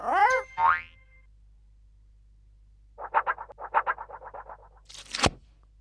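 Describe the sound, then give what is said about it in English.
Springy cartoon boing effects for a bouncing ball in a children's alphabet cartoon: two quick boings, a pause, then a fast run of bouncy pops, ending with a sharp sweeping zip. “A ball! B is for ball!”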